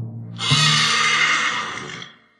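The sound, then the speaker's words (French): An old, tired horse whinnies in one long, loud, breathy neigh lasting about two seconds, fading out at the end. “On lui donna un vieux cheval fatigué.”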